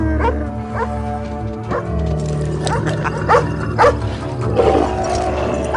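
A dog tied to a tree barks in short, high yips, a string of several uneven barks over a steady low background hum, near anxious camels.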